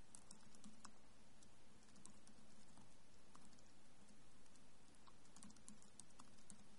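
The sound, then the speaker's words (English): Typing on a computer keyboard makes many quick, faint clicks in an irregular patter that runs on steadily, with no talking. “So I will go ahead and type out here.”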